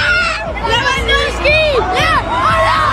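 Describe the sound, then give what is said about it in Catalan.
Roaring crowd of hundreds of thousands celebrating FC Barcelona's league title in central Barcelona: a dense, loud wall of cheering and chatter with high whoops and whistles rising out of it. “750.000 persones, segons la Guàrdia Urbana, desborden durant 5 hores al centre de Barcelona per la rua de celebració del títol de Lliga del Barça. Públic embogit.”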